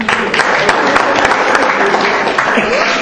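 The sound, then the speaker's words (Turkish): Applause from a group during a quiz competition, a steady wash of clapping that runs through the whole clip. “Okey. Okey. O zaman alkışlıyoruz.”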